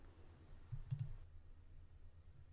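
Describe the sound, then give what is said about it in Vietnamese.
A faint computer mouse click while someone uses a software tool: a quick double click against a low, quiet hum. “Các bạn click vô công cụ hữu ích.”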